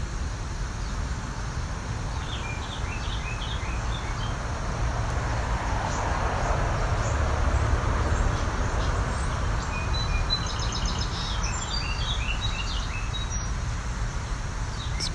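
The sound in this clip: Faint song from a male or immature bird practicing its repertoire: short, high chirping phrases come in two scattered clusters over a steady broad rush of background noise.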